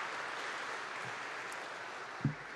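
An audience at a Sunday church service applauds to welcome a new sacred music intern, a soft, steady wash of clapping that runs evenly through the whole stretch.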